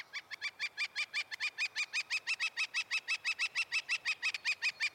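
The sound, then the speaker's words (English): A northern flicker, a brownish woodpecker with a black crescent bib and spotted belly, gives a long, steady series of loud, rapid, high call notes at an even rhythm, with no other sound. “That's the sound of a northern flicker, a brownish woodpecker, larger than a robin, smaller than a crow, with a black crescent bib and spotted belly”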